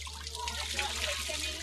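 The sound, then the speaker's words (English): Water runs at a salon wash basin as a girl's hair is shampooed, a steady trickling splash over a low, constant hum. “I'm going to get my hair cut, get it washed first. Hopefully that's not too hot.”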